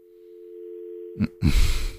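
A steady telephone line tone hums through a failed call-in attempt, unbroken for over a second, then cut by a brief burst of noise and a louder, rough rustling clatter at the end.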